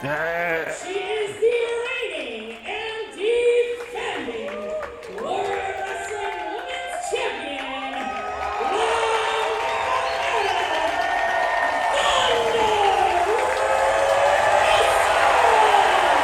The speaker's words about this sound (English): Holy cow. Now that's an ovation. Crowd definitely behind Thunder Rosa in this one.